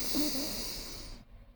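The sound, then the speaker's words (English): A deep breath drawn in during guided meditation: one long, airy hiss of inhaled air, fairly quiet and steady, cutting off sharply near the end with no talking. “Find a comfortable place to sit and close your eyes. Take a deep breath.”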